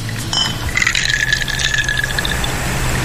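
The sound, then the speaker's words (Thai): A drink being prepared and poured into a glass: a steady gushing fill with a bright ringing tone that lasts about two seconds, over a low background rumble, with no talk. “ขอเสียงการชงใช่ไหม”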